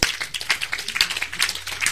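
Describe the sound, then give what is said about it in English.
Church audience clapping, a steady rhythmic run of many sharp claps at an even, quick beat, with no voices over them. “If you are clapping, clap better, because this is something that should change your heart.”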